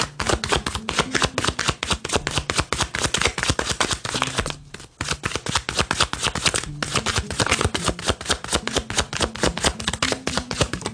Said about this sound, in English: Alright, so let's get one more shuffle.